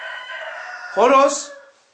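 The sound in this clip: A rooster crows once, a loud, harsh call that swoops up sharply, holds briefly and then cuts off into silence, following a steady tonal sound.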